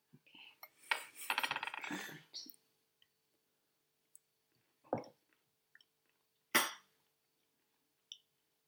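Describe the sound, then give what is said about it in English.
The back of a spoon scrapes leftovers of chopped magnolia flowers pickled in miso out of a small jar: faint scraping and light clinks, with a few soft taps after long gaps. “So this was just a little leftover jar, and it's got a little secret. Let me use the back of this spoon to try and get it out for you.”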